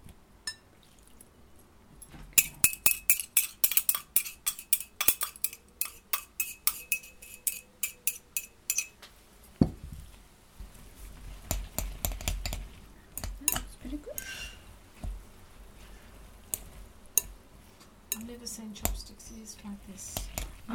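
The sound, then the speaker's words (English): Utensils clink and tap against a bowl as wine and ginger are mixed together. Many rapid metallic clicks come in bursts, with quieter squishing stirring between them, while people talk. “There's the wine with the ginger. Ah, wine with ginger. So I'm going to mix them together.”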